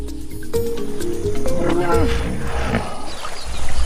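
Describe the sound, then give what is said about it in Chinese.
A hippopotamus giving a harsh, loud roar: rough, throaty bursts with wavering tonal grunts, pulsing rhythmically and growing stronger toward the end. “河马会发出各种声音交流，这种刺耳的咆哮十分响亮，几千米外都能听得到。”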